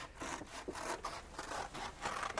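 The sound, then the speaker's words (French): Scissors cutting a footprint shape out of paper: many quiet rasping snips in a quick, uneven series, alone with no talking. “Découpez cette empreinte de pas que vous voyez fort distinctement. Voilà, les ciseaux et le papier.”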